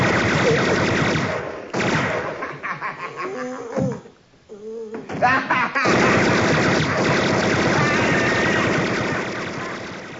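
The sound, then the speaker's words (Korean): Gunfire in a film scene comes in loud, dense rattling bursts. The volume drops briefly near the middle, then the heavy firing resumes and slowly fades toward the end. “진짜 총소리가 네, 뭐 영화니까요.”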